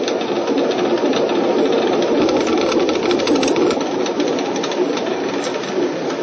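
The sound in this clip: A renovated family watermill grinds with a steady, dense mechanical rumble and a rapid rattling clatter running throughout at an even loudness.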